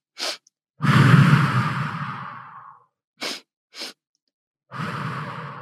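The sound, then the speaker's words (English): A breathing exercise: short, sharp sniffs in through the nose alternate with long, breathy exhales out through the mouth. A pair of quick inhales comes before each slow, fading outbreath. The breathing is quiet and clear with no talk. “it's breathing in for 2 strokes through your nose and out 1 stroke through your mouth”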